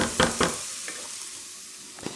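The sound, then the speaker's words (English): Stirring a sizzling, lightly golden cooking base in a pan: a few short scraping strokes over a faint, steady frying hiss, with no talking. “I'm just giving my base here a quick stir. There's a little bit of golden coming along here.”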